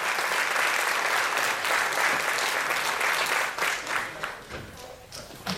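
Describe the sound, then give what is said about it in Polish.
Applause from a crowd: dense, continuous clapping that thins out toward the end into fewer, scattered claps. “Ja myślę, że te oklaski były takim najlepszym wyrażeniem tego, co wszyscy czują”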